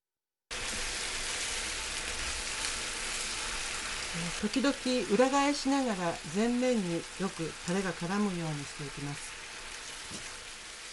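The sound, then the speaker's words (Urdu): Potato-starch-coated chicken fillets simmer in bubbling teriyaki sauce in a pan, giving a steady soft sizzle throughout while a voice talks over the middle section. “جب sauce میں ابال آ جائے تو مرغی کے فلے واپس pain میں ڈال دیں۔ مرغی تو پہلے ہی گلی ہوئی ہے، لہٰذا آپ کو بس یہ کرنا ہے کہ سوس اچھی طرح ان ٹکڑوں پر لگ جائے۔”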